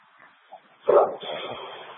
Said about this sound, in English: There's a motorhome with two dogs outside of it, nobody around, and one of the dogs is aggressive.